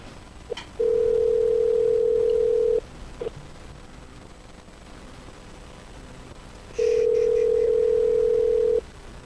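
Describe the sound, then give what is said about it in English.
Telephone tones while a call is dialed: two long, steady, mid-pitched tones of about two seconds each, separated by a pause of about four seconds with a few faint clicks. “Dialing.”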